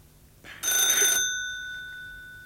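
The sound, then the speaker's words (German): A single short burst of a telephone bell, bright and metallic, fairly faint, with ringing overtones that linger and fade after it stops. “Das Telefon.”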